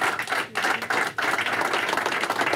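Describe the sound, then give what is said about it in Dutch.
Applause from a group of people as a politician walks into the room: dense clapping with two brief dips, then steady again. “Je hoort dat de rest van zijn mensen applaudisseert voor hem. Laten we eventjes gaan luisteren naar het applaus.”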